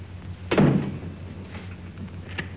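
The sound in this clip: A door is kicked shut with one heavy, booming thud that rings briefly. A faint, small click follows near the end, as if the door is being locked.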